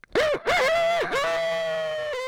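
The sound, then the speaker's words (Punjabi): A human voice imitates a rooster's early-morning crow, with a couple of short strained bursts leading into one long, wavering held note that fades gently. “ਅਤੇ ਮੈਂ ਤੁਹਾਨੂੰ ਕੁੱਕੜ ਦੀ ਬਾਂਗ ਸੁਣਾਉਂਦਾ, ਜਿਵੇਂ ਕੁੱਕੜ ਸਵੇਰੇ ਸਵੇਰੇ ਬਾਂਗ ਜਦੋਂ ਦਿੰਦਾ,”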